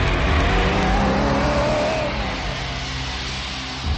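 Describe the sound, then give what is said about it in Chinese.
A car engine drives off in a steady, rough rumble with broad road noise. It stays fairly loud throughout and eases only slightly over about four seconds. “黑木慈说完，开车走了”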